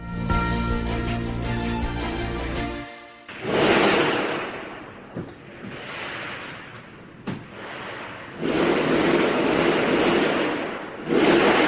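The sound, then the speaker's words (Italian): Gunfire recorded during a coordinated double terrorist attack in Tehran: after a short passage of music, a few sharp, isolated bangs cut through loud, rushing noise, with no talk. “Sentite l'audio degli spari, dell'attacco terroristico oggi in Iran, un doppio attacco in realtà, coordinato”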